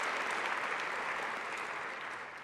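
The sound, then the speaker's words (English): Warm applause from an audience welcoming two guests on their final day, a dense, even roar of clapping that stays strong throughout and eases slightly at the very end. “But can we give them a warm Scots welcome on their final day?”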